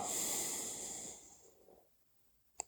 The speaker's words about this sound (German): Ja, und dann kommt wieder so ein tiefer Atemzug.